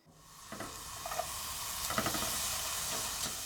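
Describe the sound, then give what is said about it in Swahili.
Onion fries in butter in a pan over low heat, a steady soft sizzle and hiss that swells slightly, broken by a few faint knocks of stirring. “Weka siagi kwenye sufuria na ukaange kitunguu kwa kutumia moto wa chini.”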